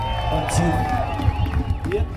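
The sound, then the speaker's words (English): Crowd noise from the 49th annual Chicano Park Day gathering at the park in San Diego: a dense, continuous murmur of many overlapping voices that holds at a fairly even, moderately loud level throughout. “I went down to San Diego to the 49th annual Chicano Park Day. Chicano Park Day. It's this big Chicano gathering at this very important park for the Chicano rights movement.”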